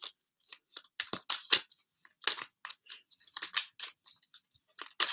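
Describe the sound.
A fresh deck of tarot cards being shuffled, producing many quick, crisp snaps and flicks in an irregular rhythm, moderately loud with brief pauses between bursts.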